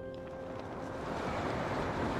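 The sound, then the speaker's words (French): Water falls into the pool below a waterfall in the video game Zelda: Tears of the Kingdom, a steady rushing splash of droplets that grows slightly louder. “J'aime trop les gouttes d'eau qui, euh, qui tombent dans l'eau après la chute.”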